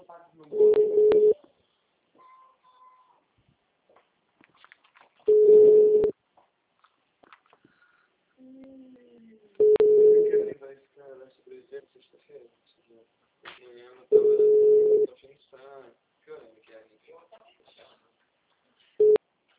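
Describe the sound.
Telephone call tones while dialing a number: five long, steady, mid-pitched beeps repeat at regular intervals, the last cut short, with faint quieter sounds between them.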